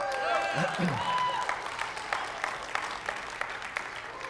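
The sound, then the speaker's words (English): Applause from a church audience during a sermon: dense, continuous clapping that holds steady throughout, with sharper individual claps standing out near the end. “man, the applause meter was almost enough to where I could just say amen”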